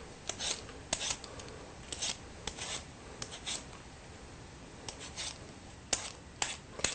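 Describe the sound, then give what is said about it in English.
A potato is being peeled for mashed potatoes. Many quick, faint scraping strokes come in short uneven bursts, each a crisp rasp, separated by brief pauses in a quiet setting. “So now, why don't we peel our potatoes for our mashed potatoes? So what I'm going to do is peel a potato.”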